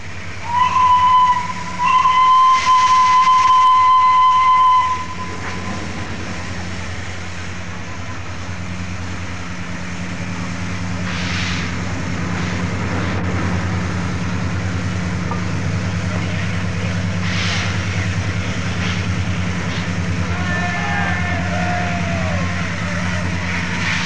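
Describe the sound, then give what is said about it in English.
A loud steam whistle sounds for about four seconds as Flying Scotsman departs King's Cross on its last working run as a British Railways locomotive, followed by the steady low rumble and hum of the moving steam train. “the historic departure of Flying Scotsman on the last working run as a British Railways locomotive, having steamed for the LNER and British Railways no less than 2,076,000 miles.”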